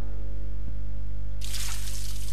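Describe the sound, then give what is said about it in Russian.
Warm water poured from a travel flask over a man, heard as a steady hissing pour that begins partway through and runs to the end over a constant low hum. “Его полили теплой водой из фляжки, припасенной на дорогу.”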